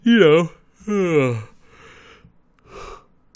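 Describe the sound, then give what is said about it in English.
Someone yawns out loud twice, each a drawn-out voiced groan sliding down in pitch. Softer breathy exhales follow. “two minutes in, I'm already yawning.”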